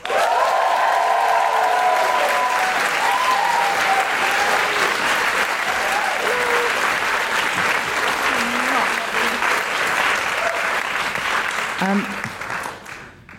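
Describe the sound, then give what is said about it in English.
A live audience at a feminist comedy event bursts into sustained, dense applause with whoops near the start, holding steady for about twelve seconds before tapering off. “Please put your hands together and make huge guilty feminist woohooing noises for Kristine Ziwica.”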